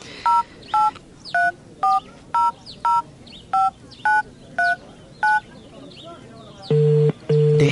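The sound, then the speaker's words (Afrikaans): A telephone number is dialed: ten short, evenly spaced touch-tone beeps, then two longer, lower tones. “No time like the present. Ek bel sommer.”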